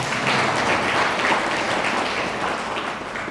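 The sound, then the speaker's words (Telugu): Loud, dense clapping from an audience at a devotional talk about Shiva, a continuous roar of many hands that holds steady and tapers off slightly toward the end. “గట్టిగా చప్పట్లు కొట్టి శివ.”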